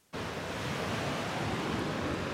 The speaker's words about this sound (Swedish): även om vinden har lagt sig så är det fortfarande vågor kvar. Det är en sån här gammal sjö, och här på stranden Fria Bad i Helsingborg så sköljer vågorna upp och de sköljer med sig tång.